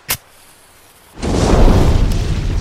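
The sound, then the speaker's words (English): A fire bursts into life as it is started: a short, sharp click is followed by a pause, then a loud, broad whooshing roar that stays strong to the end. “Let me just get this fire started”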